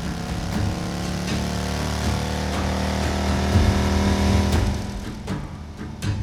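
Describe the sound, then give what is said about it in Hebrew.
A jeep engine accelerating, a steady droning hum rich in harmonics that swells louder past the midpoint before easing, with a few sharp clicks toward the end. “פתאום, רגע לפני הבור, הג'יפ הגביר מהירות...”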